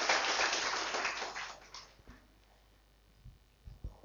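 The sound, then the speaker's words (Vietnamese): Audience applause in a hall during a business seminar for distributors: a loud, dense patter of clapping fades away within about two seconds, leaving a few faint scattered knocks. “Cảm ơn các anh chị, cho mình một tràng pháo tay, nhận thức đúng đắn.”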